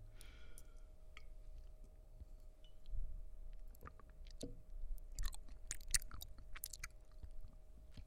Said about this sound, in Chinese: 快点张开嘴，尝尝我熬的粥好不好喝？尝一尝嘛。